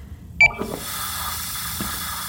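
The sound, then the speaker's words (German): Steady hiss of steam from a coffee machine, beginning just after a short electronic beep and continuing evenly to the end, with faint low rumbling beneath. “Thomas hatte doch von dieser Kaffeemaschine erzählt, der lebendigen Kaffeemaschine.”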